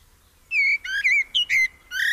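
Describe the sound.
A blackbird sings a run of short, clear, fluting whistled phrases separated by brief pauses. The bright, melodic notes rise and fall and stand out alone against near silence.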